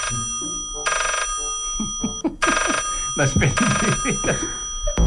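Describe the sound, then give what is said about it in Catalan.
A telephone rings in a few bright electronic bursts while people talk over and between the rings. “Quan de sobte, Yeplop Holmes rep una trucada que li canviarà la vida.”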